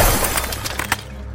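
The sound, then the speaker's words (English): Glass windows, drinking vessels and statues shatter in a throne room: a dense burst of breaking glass with a few sharp, bright crashes of shards, then scattered tinkling that fades out. “The intricate glass windows, as well as drinking vessels and statues, shattered.”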